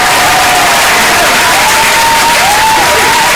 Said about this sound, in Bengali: তাদের জন্য কিন্তু রইল এখন জোরে হাততালি।